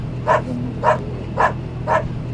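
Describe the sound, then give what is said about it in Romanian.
A drug-sniffing dog at the Tudora customs post barks four times in an even rhythm, loud and sharp, over a steady low hum. “De către BOS, câinele antidrog, care de 5 ani îi ajută pe cei de la Vama Tudora pentru că are și un miros de 120 de ori mai sensibil decât cel al omului.”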